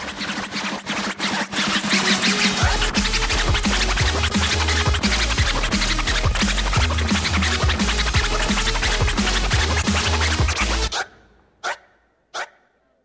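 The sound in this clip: A hip-hop DJ scratches records on turntables over a heavy, bass-driven beat at a hip-hop theater festival in Washington, D.C. The dense scratching runs continuously, then drops out, leaving a few short isolated scratch bursts.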